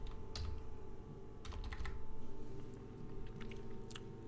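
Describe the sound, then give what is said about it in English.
Computer keyboard typing as a name is entered into a sports stats search, with scattered, uneven keystroke clicks over a steady low hum and no talk. “I guess you gotta type in Wilson, I guess.”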